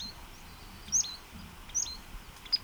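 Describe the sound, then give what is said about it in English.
A bird's position call note: three brief, high, thin chirps spaced under a second apart over faint steady background hiss. “Position note by same bird.”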